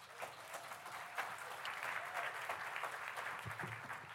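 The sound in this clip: Audience applause welcoming a preacher to the pulpit at a church service, steady sustained clapping from many hands, fairly faint and even throughout.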